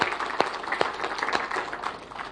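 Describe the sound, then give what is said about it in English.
Clapping from a church audience during a worship service: a dense wash of overlapping hand claps, with a few sharp, distinct claps standing out from the steady applause. “Let's give the Lord a clap.”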